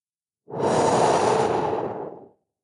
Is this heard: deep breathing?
yes

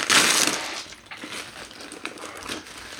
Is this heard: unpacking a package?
yes

